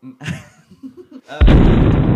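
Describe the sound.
A bomb explosion hits suddenly after a brief voice, a loud, booming blast that trails into a sustained roar of rumbling noise.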